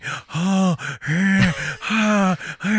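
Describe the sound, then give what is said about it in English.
A voice imitates heavy, panicked breathing during sex: many rapid, voiced gasping breaths with a groaning tone, each pulled in and pushed out in quick succession with short breaks between. “he does this weird breathing thing when he's like having sex.”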